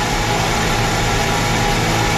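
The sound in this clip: Race car engine running on its pit limiter, a steady, unbroken drone with dense low rumble and a broad buzzing roar held at an even loudness throughout, with no talk.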